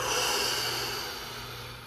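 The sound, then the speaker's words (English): A single long breath from a guided breathing exercise, drawn in through the nose and let out through the mouth: a steady, airy rush that fades slightly toward the end, with no voice. “breathe in through the nose and make sure the breath goes all the way down to the belly. And when you breathe out, out through the mouth, okay? All right, let's do five. Inhale. Exhale.”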